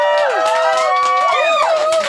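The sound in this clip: A crowd at a live show cheers and makes noise in one continuous loud roar, with shrill whistles sliding up and down in pitch throughout.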